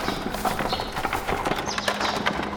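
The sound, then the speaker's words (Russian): Hooves clip-clop as a horse-drawn cart pulls up at a monastery during a crowded Easter feast. The hoofbeats are steady and rhythmic, with a dense, continuous background of noise. “А вон телега подъезжает Она-то нас интересует”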